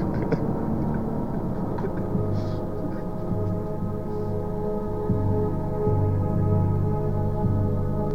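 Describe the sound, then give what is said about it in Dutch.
A steady low engine drone fills an airplane cabin as the just-landed plane taxis slowly toward the airport, a constant layered hum with faint higher whine and no voices. “we zijn net geland. We... Taxi je nu langzaam naar de luchthaven toe.”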